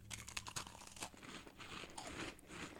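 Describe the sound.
Crunching bites and chewing of a banana cream-filled biscuit cookie: many crisp, irregular crunches and crackles in quick succession, faint and without talk.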